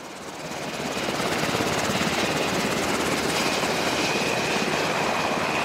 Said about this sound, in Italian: È notte, un Black Hawk americano atterra a luci spente nella Tobruk, carica un ferito.